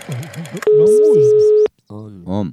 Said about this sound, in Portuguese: eu vou ligar agora